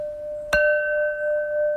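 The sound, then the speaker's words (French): Porcelain struck once, giving a sharp tap that blooms into a crystal-clear ring of steady, pure tones that sustain evenly to the end, heard alone. “Ce son-là, il n'y a que la porcelaine qui le donne. Et pourquoi? Parce qu'en fait, c'est un son cristallin qui nous montre la solidité.”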